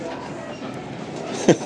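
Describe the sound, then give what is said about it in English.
A railway maintenance vehicle passes on the tracks with a steady, rumbling rail clatter. A brief, sharp, louder burst comes near the end. “Another train, but it looks like a truck or something that fixes railway lines.”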